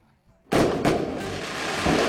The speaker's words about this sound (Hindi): धमाका बड़ा था ना